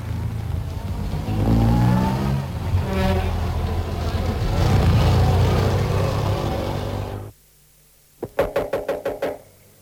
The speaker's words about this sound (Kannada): ಬೇಗ ಬಾರೇ, ಬಸ್ ಬಂದ್ಬಿಡ್ತು.